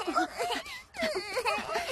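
A child in an animated cartoon whimpering and crying, with quavering high wails that break off briefly midway and then resume.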